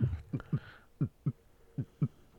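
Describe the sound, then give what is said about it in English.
A heart beating in a steady lub-dub rhythm: low, muffled thumps in close pairs, about three full beats after a single opening thump, fairly faint and alone. “That's correct. It's a heart beating.”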